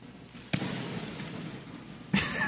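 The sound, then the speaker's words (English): A ball is kicked hard by a young woman on a practice trial: two sharp thuds about one and a half seconds apart over a steady background hiss. “You're hearing the sounds of this chick kicking. She literally kicked it like 8 yards.”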